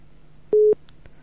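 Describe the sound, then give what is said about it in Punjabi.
A telephone line tone as a radio caller fails to connect: one short, steady, mid-pitched beep, alone over a quiet line. “ਅੱਜ ਲੱਗਦਾ ਕਾਲ ਵਾਲਾ ਕੰਮ ਟੇਢਾ ਜਿਹਾ ਹੀ ਆ ਅਤੇ ਆਵਾਜ਼ ਲੱਗਦਾ ਨਹੀਂ ਆ ਰਹੀ”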